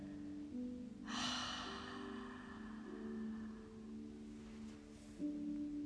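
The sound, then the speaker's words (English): A slow, deep breath is drawn in through the nose and let out through an open mouth, heard as a soft, airy rush over a faint, steady low hum. “Now take a deep breath in through your nose and exhale through an open mouth.”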